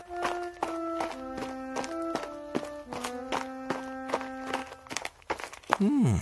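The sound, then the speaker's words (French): Footsteps walk in a steady run of many soft steps beneath sustained musical tones, and a brief voice sounds near the end. “Élie marche jour et nuit, 40 jours et 40 nuits.”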